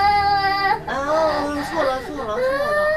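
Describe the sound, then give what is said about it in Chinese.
A baby cries in loud, high, wavering wails broken by short catches of breath, the pitch bending up and down through each sob. “不哭了，我的乖乖”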